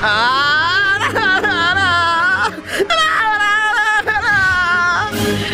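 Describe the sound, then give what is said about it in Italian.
Crying and whimpering from a voice in a comedy sketch: wavering, high-pitched sobbing wails that rise and fall in several long drawn-out bursts, loud and continuous, with short catching breaths between them. “Basta piangere, tranquillo!”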